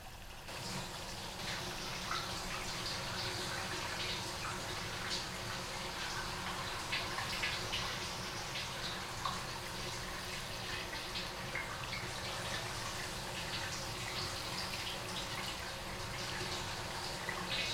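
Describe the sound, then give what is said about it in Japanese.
Hot water being poured to rinse, a long, continuous splashing flow that stays steady and unbroken, with no talking over it. “お湯流すよ。”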